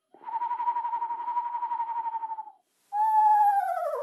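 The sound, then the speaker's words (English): Screech owl call: a long, even, wavering trill held at one pitch, then after a short pause a louder, harmonic-rich whinny that slides downward in pitch. “a smaller owl, like a screech owl, might go,”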